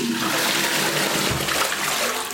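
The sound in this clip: A flush toilet rushes with water, a steady, loud gush of flowing and swirling water that holds at an even level for the whole clip, with no voices.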